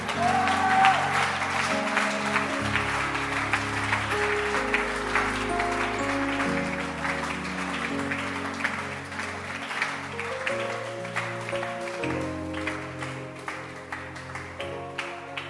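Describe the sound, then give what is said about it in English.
A church audience claps steadily and densely for the whole stretch, a sustained wash of applause over music playing underneath. “Clap your hands for them. Are you going deeper in your hand clap?”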